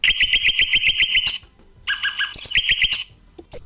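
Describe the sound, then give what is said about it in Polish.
Bird chirping in quick, sharp, high notes, one long run that stops briefly and then resumes with another series of repeated chirps. “Mamy jakiegoś ptaszka drugiego.”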